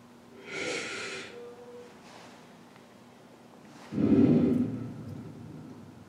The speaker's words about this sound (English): become aware of our breaths, in our being, in our thoughts, breathe in.